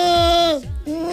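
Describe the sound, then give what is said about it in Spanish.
A human voice imitates a bleating goat as a singer's vocal warm-up: a wavering, nasal tone that sags in pitch, breaks off briefly, then resumes on a lower note. “Sí, que parezco una cabra huérfana, pero es verdad, casi se calientan las cuerdas.”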